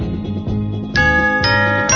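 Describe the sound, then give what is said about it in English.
Christmas bells ring out over a steady low musical backing, with a few bright, clear strikes whose tones sustain and shimmer between hits. “Christmas bells, those Christmas bells, ringing through the land”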